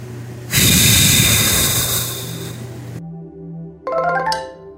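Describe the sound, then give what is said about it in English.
A long, deep exhale out through the mouth rushes loudly over soft sustained music for a couple of seconds, then stops; a short bright chime follows. “And now let's exhale everything out through the mouth.”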